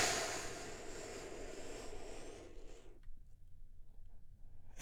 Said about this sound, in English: And we do that by taking one big, deep healing breath with me right now.